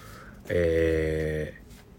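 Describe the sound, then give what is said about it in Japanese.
An electronic beep rings out as one steady, buzzy tone rich in harmonics, holding for about a second before cutting off. “なんかピーピーって言った。”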